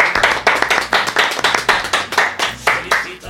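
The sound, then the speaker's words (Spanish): Loud, crisp applause for a guest, made of many distinct hand claps in a fairly even, quick rhythm with little crowd noise behind, suggesting a small group clapping. “Un aplauso para Mar, por favor.”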